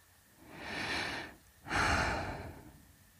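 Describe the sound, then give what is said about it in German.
A person takes one deep breath in, then lets one long breath out during a mindfulness exercise. The inhale is a soft airy rush, followed after a brief pause by a louder, fuller exhale that fades away. “Noch einmal tief ein- und ausatmen.”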